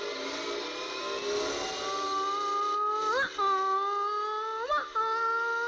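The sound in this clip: An electric surgical drill runs during an operation, giving a steady high-pitched motor whine that briefly surges and rises in pitch twice before settling back to its even running tone.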